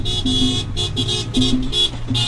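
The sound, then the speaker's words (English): Cars in a 60-car caravan driving through a Puerto Rican neighborhood in Orlando, with many horn toots and honks over a steady engine rumble. “A 60-car caravana weaves its way through a Puerto Rican neighborhood in Orlando.”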